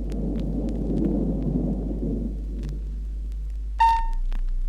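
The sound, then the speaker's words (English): Thunder gives a low, rolling roar for about two seconds and then fades away. A short, bright ringing tone sounds near the end. “Glooskap rolled his brother over, and this set up a great sound, which was the rolling roar of thunder.”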